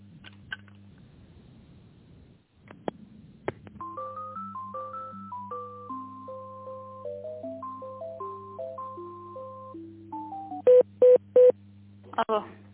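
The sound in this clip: Telephone line tones play while a business call is transferred. A steady low electronic hum runs under a simple stepping electronic melody, then three short bright beeps and a final click, with no talking.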